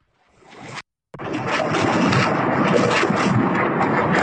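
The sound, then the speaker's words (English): Rockets, part of a barrage of 22, fire from the Golan Heights into Israel, giving a loud, sustained roaring rush that cuts out briefly near the start and then rumbles on steadily. “we're rolling footage of 22 rockets firing into Israel from the Golan Heights”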